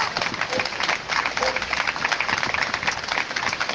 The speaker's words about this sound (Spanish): Así que yo creo que nos damos un fuerte aplauso porque nos lo merecemos.